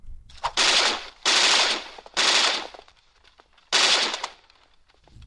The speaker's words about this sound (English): You can even get the gun, RoboCop's gun noise.